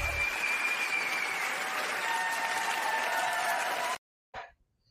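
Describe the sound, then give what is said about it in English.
Audience applause: dense, even clapping that holds at a steady level for about four seconds, stops abruptly, and is followed by a short, faint blip of sound. “yes, I had to give them their round of applause as well.”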